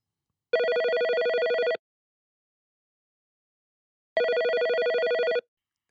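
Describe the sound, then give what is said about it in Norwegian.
A telephone rings while a call is being placed: two steady electronic rings, each about a second long, separated by a long silence, with no voices. “La oss ringe henne”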